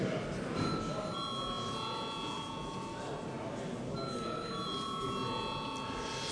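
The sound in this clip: A parliament chamber bell rung to call a vote: faint, sustained bell ringing in two long stretches separated by a short break, over steady background noise.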